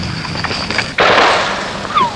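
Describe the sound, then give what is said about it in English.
A sniper rifle shot in a war setting gives a sharp, sudden crack that bursts out loud and then decays over the following second. “And the sound of Charlie bringing the war to you with the knifing crack of a sniper's bullet.”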